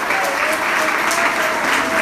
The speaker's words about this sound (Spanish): Levante ese aplauso a Dios en esta mañana.